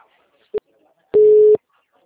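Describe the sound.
Telephone busy tone after a dropped call: two beeps of the same steady low tone, a short blip and then a longer note of about half a second, with silence around them.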